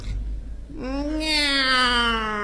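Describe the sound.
A person imitates a cat's meow with one drawn-out, nasal, strongly voiced cry that swells and holds its pitch, loud and alone after a short rough lead-in.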